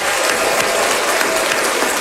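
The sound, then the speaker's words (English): Audience applause, a continuous, bright rattle of many hands clapping at an even, loud level from start to finish. “So let's rejoice in that for a minute. Let's we can celebrate a little applause.”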